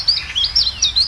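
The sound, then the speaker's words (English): A chiffchaff calls in a rapid series of short, high-pitched chirps, heard alone and clearly. “This is the call of the Chiff Chaff.”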